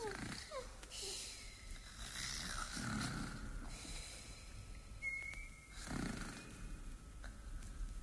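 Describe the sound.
Two sleeping queens snore in a children's story, with soft, rhythmic snores and snorts repeating many times at a faint level and a brief whistling tone partway through.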